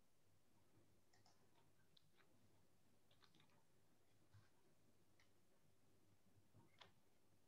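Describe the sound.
Soft typing on a computer keyboard: faint, scattered clicks and taps at an irregular pace over a quiet, steady background.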